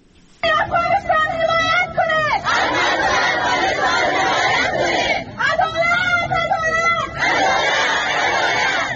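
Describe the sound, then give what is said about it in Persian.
Crowd of Afghan women chanting at a protest in Islamabad, Pakistan: loud high voices shout slogans in unison in several rhythmic bursts, separated by rougher stretches of overlapping crowd noise. “این صدای اعتراض زنان افغان است که پس از حاکمیت دوباره طالبان به پاکستان مهاجر شدند.”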